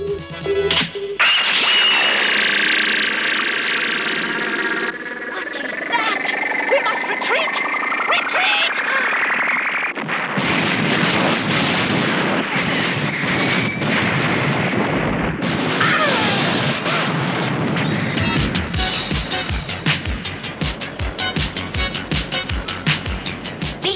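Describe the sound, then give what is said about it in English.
An X-Impulse sci-fi energy weapon fires: a loud, dense wash of noise carries a tone that sweeps steadily upward, then breaks into heavy, crashing bursts and booms that continue to the end. “Now, Gyro, fire. X-Impulse, firing.”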